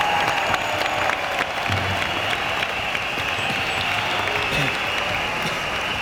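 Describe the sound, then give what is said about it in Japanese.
Audience applause at a concert, a dense, even wash of many hands clapping that stays steady and loud for the whole stretch with no break. “もう一度拍手をどうぞお願いします”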